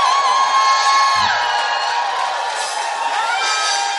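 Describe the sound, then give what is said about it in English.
A church audience shouts praise, a loud, sustained roar of many voices cheering and whooping together over a held musical tone that continues throughout. “Lift him up. Hallelujah. Give the Lord a shout of praise.”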